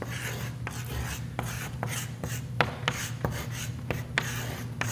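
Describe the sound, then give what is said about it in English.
Words being written on a board: many short, scratchy strokes and taps in an uneven rhythm, fairly faint over a low, steady hum. “I'm going to write some words on here because I think they're important, and you probably should write them down.”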